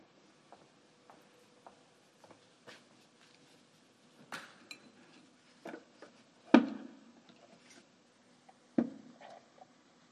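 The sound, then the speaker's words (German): An apple being cut into pieces in a kitchen: sparse light taps and clicks of a knife and utensils, building to a few sharper knocks and two louder thuds, with no voices. “Ich wasche jetzt den Apfel und schneide ihn in Stücke und esse ihn mit oder ohne dich.”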